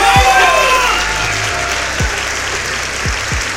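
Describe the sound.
Audience applause and cheering for a rapper at an album show, with loud, dense, unbroken clapping throughout and a few deep, low thuds underneath.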